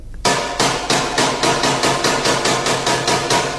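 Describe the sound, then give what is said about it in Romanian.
Knocking at night from the flat above comes as a rapid, even series of sharp hammer-like blows, over a dozen in a steady rhythm, loud and with no voices. “Cine bate noaptea sus deasupra mea?”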